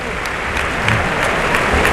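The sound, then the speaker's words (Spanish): Applause from a crowd giving an ovation to reward a performer's effort: dense, steady clapping that fills the whole clip at a loud, even level, with no talk over it. “esta ovación es de premio al esfuerzo que ha hecho Manzanares.”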